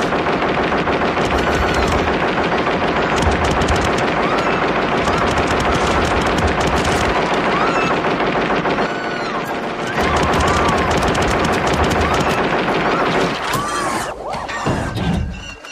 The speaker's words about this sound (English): It counts down to zero, and then Ed 209 opens fire. Immediately just obliterates this guy.